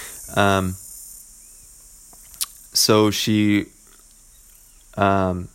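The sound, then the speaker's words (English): Steady, high chirring of cricket-like insects in Costa Rica runs through the whole recording as a faint background drone, with a few louder, voice-like tonal bursts breaking in over it. “I'm here in Costa Rica, and we have these bugs that make this, like, they sound like crickets. But it's the sound you can hear in the background.”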